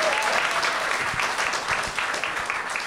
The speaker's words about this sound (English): Have another hand for David.